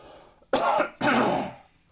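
Throat clearing from a tickle in the throat: two rough, fairly loud bursts of about half a second each, separated by a brief pause.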